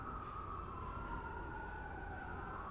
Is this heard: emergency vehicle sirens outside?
yes